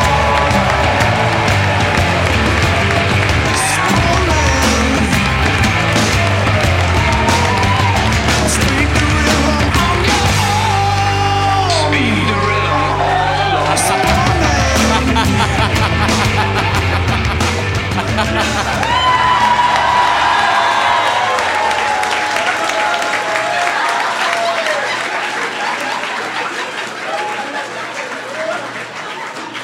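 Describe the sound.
An audience cheers, whoops and applauds as comedian Mike Mitchell, the Spoon Man, is introduced at a live roast show. Loud, sustained crowd noise with shouts carries throughout and eases a little toward the end.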